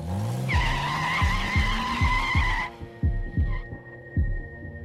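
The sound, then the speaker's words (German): A sports car drives off with its tires squealing. A loud, sustained high screech rides over an engine whose pitch rises, then the squeal cuts off, while a steady throbbing beat pulses underneath. “Steig ein. Wir fahren hinterher. Ich habe einen Sportwagen.”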